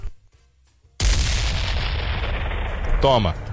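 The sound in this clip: A bomb explosion sound effect bursts out after a second of near quiet as one sudden, loud boom. It trails into a sustained, rumbling roar, and a brief sweeping tonal sound rises near the end.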